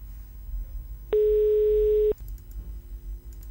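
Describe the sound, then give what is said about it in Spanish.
A telephone ringback tone on an outgoing call sounds as a single steady, pure tone about one second long, loud over a faint background hum. “A ver, a ver, a ver. Estamos llamando,”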